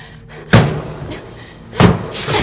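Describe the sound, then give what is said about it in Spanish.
Two heavy, sharp thuds of a high-heeled shoe striking a false ceiling and knocking a piece loose. Each blow is followed by a brief crackling tail, with near silence between them. “golpea el techo con el zapato arrancando un trozo.”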